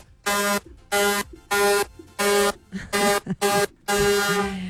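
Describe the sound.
Loud horns blast in a run of several harmonic, buzzy tones of even pitch, each sustained briefly with short gaps between; the final blast runs the longest.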